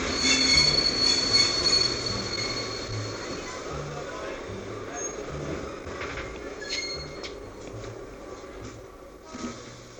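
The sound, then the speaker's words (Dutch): A train arriving at a station, its wheels squealing over a deep rumbling roll that is loudest at the start and then settles into a steadier, quieter rumble. “komen wij aan op station Middelburg. Station Middelburg.”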